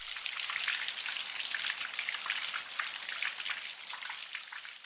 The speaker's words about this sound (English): And here's the sound of rain as white noise.